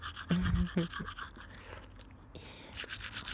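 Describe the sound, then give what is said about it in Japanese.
Toothbrush scrubbing teeth: quick, rhythmic bristle strokes, fairly faint, coming in a brisk run at the start and again near the end. “よく磨いておこうね。ゴシゴーシ。ゴシゴシゴシゴーシ。”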